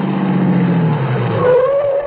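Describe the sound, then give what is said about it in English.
A car pulls to a stop in a 1970s radio drama sound effect, its engine drone sliding lower before a higher whine rises near the end, loud and continuous on an old, muffled recording. “12 minutes and 20 seconds later, we pulled to a stop in front of the fourplex.”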